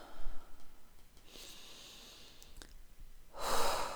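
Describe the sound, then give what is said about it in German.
Deep, airy breaths during a standing posture exercise: one breath near the start, quiet stretches in between, then a louder, fuller breath near the end, with no talking. “Und dann atme hier mal tief ein und aus.”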